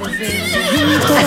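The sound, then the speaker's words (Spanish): A human voice imitates a neighing horse, giving a loud, brief, wavering whinny that quivers up and down in pitch. “Me llaman el caballo relinchador.”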